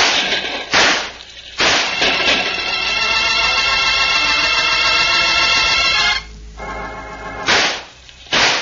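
Gunshots from a single gun in a radio drama: several sharp, loud cracks spaced irregularly, a few early on and more after a long gap.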